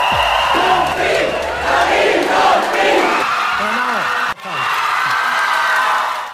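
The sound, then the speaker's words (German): Fans from the wine-growing regions cheer loudly at a German wine queen election, with sustained whoops, shouts and yells from a large crowd. The noise cuts off briefly near the end, then the roar resumes. “Ein festes Element bei der Wahl der deutschen Weinkönigin sind jedes Jahr die mitgereisten Fans aus den Anbaugebieten. Die waren auch diesmal wieder hochmotiviert und laut. Sehr laut.”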